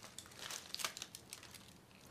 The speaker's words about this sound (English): Cheese, tomato and bacon. Brown bread. It's good for you, that. It's in foil, look. It's still warm. You just cut it in half.